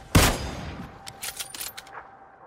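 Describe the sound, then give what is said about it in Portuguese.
A rifle shot in a video game: one loud, sharp crack with a ringing tail, followed by a few fainter, rattling bursts. “o cara levanta a arma dele e vai atirar em você. Ele tá com rifle.”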